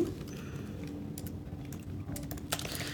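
Typing on a computer keyboard as a ChatGPT prompt is entered, a quiet, irregular run of key clicks over a low background hiss.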